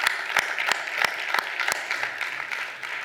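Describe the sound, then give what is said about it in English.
Applause from a church audience after a man shares his testimony, a dense steady clapping with a few sharper claps standing out, loud and without clear voices. “can we make some noise for him sharing his testimony again tonight?”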